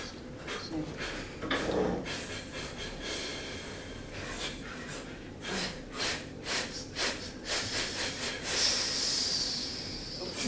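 Deep breathing during a guided neck-stretching exercise: a series of soft, airy, hissing inhales and exhales that repeat at an uneven rhythm and stay fairly faint throughout.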